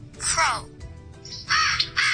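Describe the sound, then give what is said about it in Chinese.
Crow cawing in a few harsh, raspy calls, loud and grating, with a short pause between the first burst and the later ones. “Crow， 乌鸦嘅声音啦”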